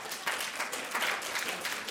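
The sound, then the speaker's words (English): Applause from people clapping at a team quiz game, a faint, steady patter of many hands that holds evenly for about two seconds with no voices on top. “Yes, you can clap.”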